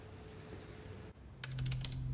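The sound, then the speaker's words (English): Computer keyboard typing at a desk: a quick burst of several sharp keystrokes clatters in the second half, following a stretch of low steady hum with no voices. “At his desk, Greer types in VSI Weapons Army.”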